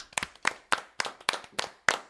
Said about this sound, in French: Je pense qu'il faut que vous applaudissiez, on s'applaudit tous. Vraiment bravo.